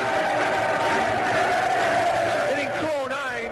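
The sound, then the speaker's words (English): Chicago baseball fans sing together in a stadium as a pitcher leaves the mound, a loud, sustained mass of voices with wavering melodic lines. “And as he steps off the mound, the Chicago fans serenade him off the pitch.”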